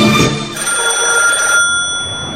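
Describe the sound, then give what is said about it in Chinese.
A desk telephone in an office rings urgently: a loud, continuous bright electronic ring that sounds without a break from start to finish, with no voices. “罗晋的办公室里，桌上的电话急促地响了起来。”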